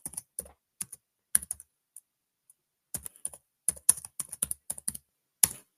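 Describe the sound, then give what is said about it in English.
Typing a search on a computer keyboard: clicky keystrokes in quick bursts separated by short pauses, with no talking. “type in grand final draw. All right. Grand final draw.”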